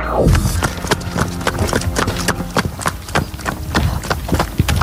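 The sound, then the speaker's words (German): A pony gallops in a fast, driving rhythm, its many quick hoofbeats thudding and clopping in close succession, loud and steady throughout with no talk over them. “Okay, es klingt nach einer Gangart, bei der ich auf jeden Fall unten landen würde, glaube ich. Das klingt nach Galopp. Das klingt ja auch schnell.”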